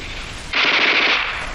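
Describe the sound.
A light machine gun fires one loud, continuous rapid burst of crisp, cracking shots. It starts after about half a second of low background noise and runs to the end.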